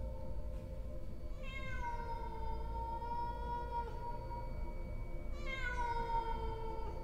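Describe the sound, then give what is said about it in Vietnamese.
A cat meowing at night: two long, drawn-out calls spaced several seconds apart, each opening high and quickly sliding down, over a steady low background rumble. “Trong đêm đen tĩnh lặng, con mèo nó cất lên những tiếng gừ gừ, gừ gừ trong cổ họng. Rồi sau đó nó bắt đầu kêu lên.”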